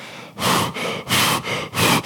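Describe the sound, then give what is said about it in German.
A man's voice imitates rapid breathing with five quick, loud, airy breaths in a steady rhythm and short gaps between them. “und ich atme die ganze Zeit so ganz schnell”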